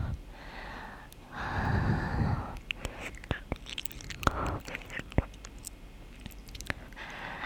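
Slow chewing with the mouth, quiet wet smacks and irregular soft clicks spread over several seconds, with breaths between them.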